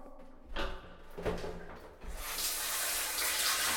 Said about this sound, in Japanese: あとは、シャワーを。